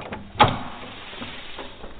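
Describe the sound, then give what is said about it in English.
The front door of a vine-covered house being unlocked: one sharp clack, then a few softer rustling sounds. “Doors unlocked.”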